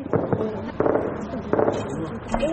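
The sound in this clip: Sharp cracks of gunfire at night around Tarinkot city ring out as a few irregular, abrupt bursts, with voices heard between and over the shots.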